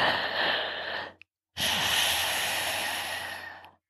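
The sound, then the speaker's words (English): Ocean-like hissing breaths drawn through a constricted throat: one long airy inhale, a brief pause, then a longer exhale that fades at the end, with no talking. “When you're able to control the throat on both the inhale and the exhale, making those noises,”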